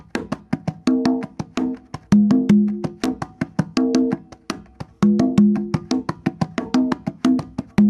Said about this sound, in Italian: E il prossimo invece ritmo che volevo far sentire è il bolero, dove c'è proprio la comunicazione alla fine del giro, sono sempre giri da due battute, e alla fine del secondo giro c'è una comunicazione tra le due conga,